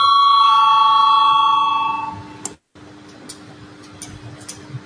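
An electric bell rings in a parliamentary chamber to call members to a vote. It sounds as a steady, loud, sustained ringing tone for about two seconds, then stops abruptly. A few faint clicks follow in the quiet.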